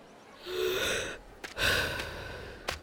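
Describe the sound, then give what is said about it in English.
A deep breath: two long, airy, breathy rushes of air, the second one longer, followed by a short sharp puff near the end. No talk is heard. “Calm down. Take a deep breath.”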